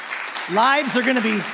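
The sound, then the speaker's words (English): Congregation clapping in a church service, a textured patter of hands running under a man's voice as he speaks. “And, you know, we could clap better than that, right?”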